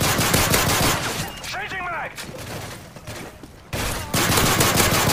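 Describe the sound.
Rapid gunfire from a video game, loud dense bursts of shots running through the whole stretch, with a voice briefly speaking over it in the middle.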